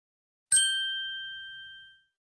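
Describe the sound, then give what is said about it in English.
A single bell strikes once with a bright, clear ding that rings on and slowly fades over about a second and a half, alone in silence. “Listen, the bell is ringing.”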